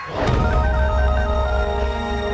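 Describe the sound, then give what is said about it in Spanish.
A phone ringtone plays alone, a loud, sustained electronic melody of bright, steady tones with no voices. “Ese no es mi tono.”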